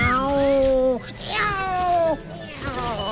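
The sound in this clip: A cat meows three times, each a clear, drawn-out, tonal call with short gaps between, loud and without other voices.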